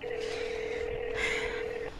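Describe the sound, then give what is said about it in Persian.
A faint, steady telephone tone plays as a woman in a Persian comedy drama dials a call. The single level tone holds for about two seconds over soft background noise before cutting off. “زنگ بزنم موسی آندره”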